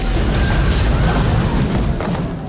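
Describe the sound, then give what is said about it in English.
A German tank fires its gun on a factory floor, a deep, heavy boom blending into a dense, sustained rumbling roar that fills the whole stretch. “Outside the pipe, on the factory floor below, a German tank opens fire.”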